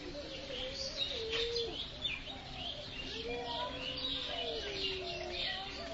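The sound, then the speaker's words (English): Birds chirping and singing beside a secluded lake reached by steps through a small red sandstone entrance. Many overlapping calls and warbling notes run throughout against a soft background hush. “And it's just like here, all you can hear is these birds.”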